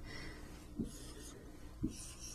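Matrix coefficients being written by hand for an augmented matrix, heard as two faint scratchy strokes separated by about a second of quiet hum.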